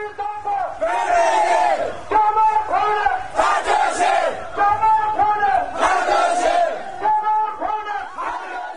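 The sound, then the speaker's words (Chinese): Protesters on a Tibet march shout slogans in unison. The loud crowd chanting repeats in rhythmic phrases that rise and fall with short breaks between them. “停止镇压西藏、停止封锁西藏等各种抗议横幅，一路高喊西藏独立、西藏属于西藏人民、中国滚出西藏等口号，从上达朗萨拉游行到下达朗萨拉。”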